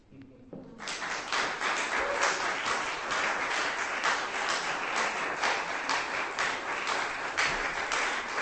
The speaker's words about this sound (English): Give her a hand.